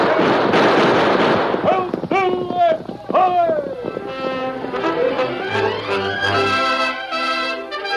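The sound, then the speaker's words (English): Rapid gunshots in an old radio western, fired while the riders gallop on horseback along a narrow path, dense loud bursts crowding the first couple of seconds before giving way to sustained tonal sounds. “Come on and shoot as you go.”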